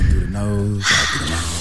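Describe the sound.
A breath drawn in through the nose during a guided breathing exercise. It is a steady, airy hiss that follows a brief voiced tone.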